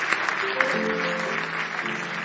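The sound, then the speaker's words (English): A church audience clapping hands in praise to Jesus, a sustained, even patter of many hands with a few sharper claps, while steady instrumental notes hold underneath. “Now give Jesus another big hand clap of praise.”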